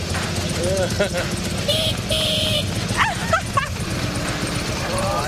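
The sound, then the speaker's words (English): Dog barking and yipping in short, sharp bursts amid people talking excitedly; the dog's calls are mostly buried under the voices, with a few higher yips standing out near the middle. “Oh, that's a dog.”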